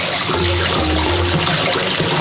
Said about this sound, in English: There's like water dripping.